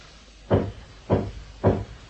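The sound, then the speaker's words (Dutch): Knocking on a cabin wall gives three dull, low thuds, evenly spaced about half a second apart, each fading quickly, with no voices. “Ik klop terug.”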